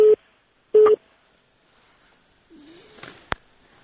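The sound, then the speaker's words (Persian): A telephone busy tone after a caller's line was cut off sounds as two short, steady, mid-pitched beeps, followed by faint line noise and a few soft clicks. “مهرباني وکړئ لکه چې ټلیفون دې قطع شو.”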